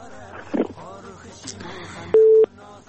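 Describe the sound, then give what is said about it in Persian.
A telephone line tone follows a caller's dropped call: after talk, one short, steady, loud beep sounds alone, then cuts off. “بله بخیالم که تماسشان قطع شد متاسفانه نتونستن که جواب مربتن.”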